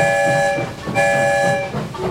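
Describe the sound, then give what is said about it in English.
A toy-like story train whistle sounds two long, steady, bright harmonic blasts with a short gap between them, followed by a brief fading tail. “One whistle, we're on our way.”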